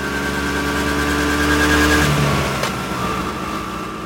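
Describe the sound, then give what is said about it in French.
A scooter ridden at full speed on the road between Rome and Ostia, its engine a loud, steady droning hum with sustained tonal harmonics and no talk over it. “Judith et François roulent en scooter à toute allure.”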